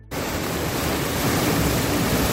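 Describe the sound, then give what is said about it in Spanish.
Storm waves and strong wind on the coast at A Coruña during rain, with gusts up to 90 km/h and waves about 8 metres, form a loud, dense, unbroken roar of rushing noise with no talk. “Es un auténtico día de perros en A Coruña, con lluvia que acompaña a vientos de hasta de 90 kilómetros por hora y olas de unos 8 metros.”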